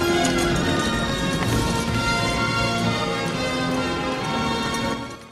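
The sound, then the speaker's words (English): Horses trotting along a mountain track produce a dense, steady clatter of many hoofbeats that continues throughout and drops away at the very end. “They trot along a mountain track, Cull at the rear.”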